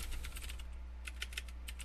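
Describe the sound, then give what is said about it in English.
Typing on a computer keyboard, with quiet, irregular keystrokes clicking in small bursts over a steady low hum. “Let me not type and talk at the same time.”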